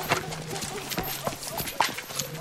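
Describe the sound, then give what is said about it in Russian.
Hooves of riders' horses clip-clop as the animals step sharply sideways in grass, a few uneven, hollow knocks in a loose, irregular rhythm. “Лошади резко шагают в бок, всадники сильно покачиваются.”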